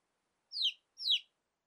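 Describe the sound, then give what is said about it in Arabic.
A small chick chirping while looking for its mother: two high, quick chirps that slide downward in pitch, separated by silence. “كتكوت صغير يبحث عن أمه.”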